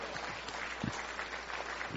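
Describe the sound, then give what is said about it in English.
An audience at a church service claps their hands, a quiet and even wash of clapping that continues steadily, with no voices. “give Jesus a big hand clap”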